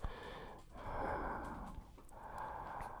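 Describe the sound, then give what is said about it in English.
Quiet, heavy breathing into a microphone, with two long airy breaths drawn one after another and a brief sharp intake between them. “I like the way you breathe, boy.”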